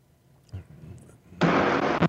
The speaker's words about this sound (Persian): شما بزن رو میکروفون، هر وقت صدات اومد من خبرت میکنم.